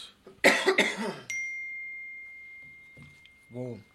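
A person coughs in a short series of harsh bursts, followed by a sustained high-pitched ding that rings on and slowly fades, with a brief voiced sound near the end.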